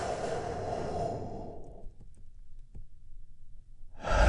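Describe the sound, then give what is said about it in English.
A deep, noisy breath drawn in fills the first half, followed by a quiet held pause before the breath noise returns at the end. “which we start by taking a big, deep healing breath all together. Here we go.”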